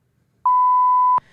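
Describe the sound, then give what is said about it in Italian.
A censoring beep sounds once as a single steady, high-pitched tone. It is loud, holds for about three-quarters of a second and stops abruptly, with no other sound around it. “questo beep che vi accompagnerà per tutta la puntata”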